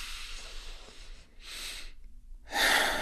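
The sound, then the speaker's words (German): A deep breath in and out during a calm guided relaxation exercise. Two soft, airy breath sounds are separated by a brief silence, and the second is louder and fuller. “macht vielleicht die Augen zu, wenn ihr wollt, einmal tief ein- und ausatmen.”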